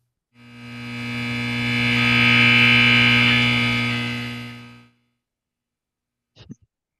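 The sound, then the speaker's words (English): Sonified solar radiation data covering one day: a buzzy harmonic drone that rises from silence to a peak and then fades away over about four and a half seconds. After a pause comes a brief, faint crackle. “Let's listen to some solar radiation data. One day of solar radiation would sound like this.”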